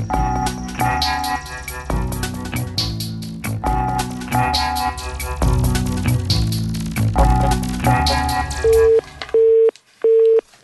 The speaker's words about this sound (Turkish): Tekrar telefondan düştü.